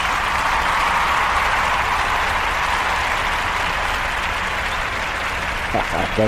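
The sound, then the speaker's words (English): Applause for a Christian talk show: a steady wash of dense clapping holds level throughout, and a brief voice comes in near the end. “Let's give a hand for this show.”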